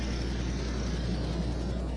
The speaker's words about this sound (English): And so we only have racers now in the 8 to 11 class on the track. Go-karts. Dirt track and go-karts.